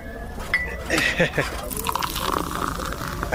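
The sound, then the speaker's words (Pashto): Tea poured into a cup, a soft liquid trickle beneath voices talking throughout. “وایم اصیل سړی ته صبر چې یوه پیاله چای درته واچوم چې ستړی شوی به.”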